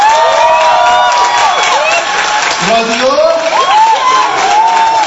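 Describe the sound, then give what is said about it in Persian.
Audience at a live show applauding and cheering, a dense, loud wash of clapping with high whoops and shouts that holds steady throughout. “من عرضم به حضور شما که رادیو شمرونی ها یه دست بزنیم”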